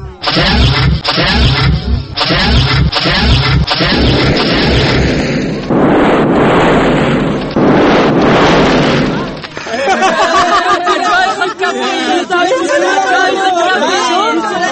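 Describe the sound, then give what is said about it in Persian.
Sound effect of a spaceship launching and spinning: pulsing engine-like bursts, then a loud roaring rush through the middle, followed by a warbling, wavering electronic tone. “بله، سفینه نزدیک است که حرکت کنه. اوه، ما چی میبینم شنوندو عزیز؟ سفینه دور خود چرخ میزنه. بله، دور خود همه چرخک میزنه.”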